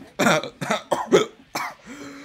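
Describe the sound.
Coughing and throat clearing from one person: a few short, harsh coughs in quick succession, then a brief low, voiced throat-clearing rumble to finish.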